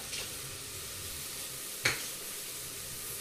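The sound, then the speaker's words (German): Onions sautéing in a pan for a stew give a soft, steady sizzling hiss throughout. One brief click sounds partway through, and no one speaks. “Ein bisschen andünsten die Zwiebeln.”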